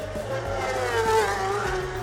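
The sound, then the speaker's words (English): A racing motorcycle passes in a road race with a loud, high engine note that swells slightly in the middle and holds steady, with no other sound over it. “That was John McGuinness going past.”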